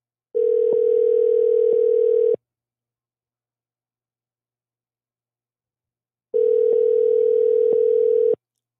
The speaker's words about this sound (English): And we're calling. There we go.